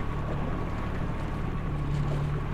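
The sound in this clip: A motorboat being driven on a lake gives off a steady, fairly quiet, low engine drone, mixed with a faint hiss of wind and water and no talk.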